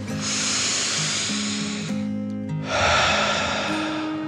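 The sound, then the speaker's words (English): A deep, calming 'dragon' breath in and out from a children's meditation: a long airy inhale, a short pause, then a longer, slightly louder exhale, both soft and hissing over steady, gentle background music tones. “a deep dragon breath in and out”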